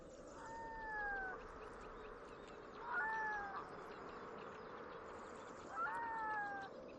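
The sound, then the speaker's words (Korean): A red-throated loon calls at its breeding ground. Three drawn-out, wailing, goose-like calls come at even intervals over a steady background hiss. “붉은목 아비도 이곳을 번식지로 택했습니다.”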